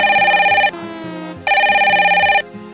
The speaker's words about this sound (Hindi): रुको रुको रिंग होता